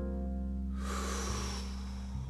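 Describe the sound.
One deep inhale taken during a guided breathing exercise, a soft, airy rush that swells in and then thins out, faint over a steady low electrical hum, with no talking.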